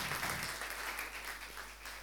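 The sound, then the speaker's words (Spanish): A church audience applauds, making a faint, steady wash of many hands clapping together with no pauses. “Así que le damos un fuerte aplauso al Señor.”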